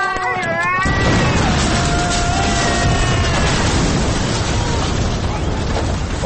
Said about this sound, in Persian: آخه منفجر شد. اصلا نفهمیدیم همون اون زمان منفجر شد، برگشت این ور منفجر شد، ولی ترکید دیگه.